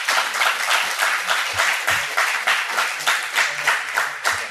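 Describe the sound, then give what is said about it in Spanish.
Audience applause for guests at a live talk event, clapping at a steady, moderate level with a regular rhythmic pulse of beats running through the whole stretch. “muchas gracias por haber venido y un aplauso para José Ángel y Javier”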